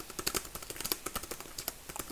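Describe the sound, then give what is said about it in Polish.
Rapid typing on a small Nortek Bluetooth keyboard for a Windows tablet: many quick, light key clicks in an uneven rhythm. The tapping is quiet and continuous throughout. “Tablet z Windowsem. Klawiatura Norteka na Bluetooth. Taka malutka, pisze się na tym tak.”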